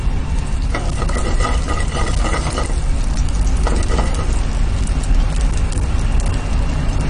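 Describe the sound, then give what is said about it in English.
Chopped ginger, chili and red onions frying in hot oil for a Sri Lankan dish give a loud, steady sizzle throughout, broken by bursts of stirring scrapes. “so the ginger goes into the hot, that's chopped ginger into the hot oil. And some chopped chili, uh, some chopped onions as well, just red onions”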